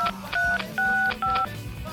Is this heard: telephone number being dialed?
yes